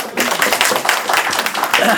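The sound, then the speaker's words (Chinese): Audience applause greets a volunteer called up during a talk, a dense, even clatter of hands that keeps a constant level for two seconds, with talk mixed in. “好，给点掌声。”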